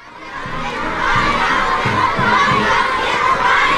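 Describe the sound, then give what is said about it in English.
Dozens of children chant a welcome for President Trump in Beijing while waving American and Chinese flags and artificial flowers. Their loud, rhythmic chant of repeated phrases swells within the first second and then holds steady. “Dozens of children welcoming President Trump. Chanting a welcome while holding artificial flowers and American and Chinese flags.”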